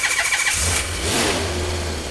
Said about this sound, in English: Hold on. I set up a generator in here a few days ago.